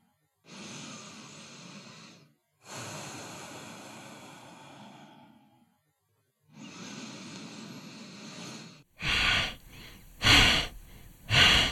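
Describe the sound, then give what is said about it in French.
Deep breaths in an energizing breathing exercise: three long, slow, airy breaths separated by brief silences, then three shorter, louder, forceful bursts of breath. “nous allons commencer par deux ou trois respirations profondes pour vous préparer et continuer pour dix cycles ensemble.”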